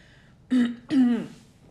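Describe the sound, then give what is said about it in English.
Two short, harsh coughs from a person coughing suddenly, in quick succession, the second longer and more drawn out, loud against a quiet background with no talk. “I don't know why I just started coughing all of a sudden.”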